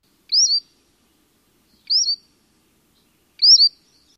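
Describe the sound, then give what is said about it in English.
Three Cordilleran flycatcher receipt calls, each a short, high two-part note, sounding at even intervals against silence. “Cordieran flycatcher has a receipt call.”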